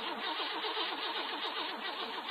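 Car engine being cranked by its starter on a cold day, a steady, loud, rhythmic pulsing whir that continues throughout without pause, with no voices.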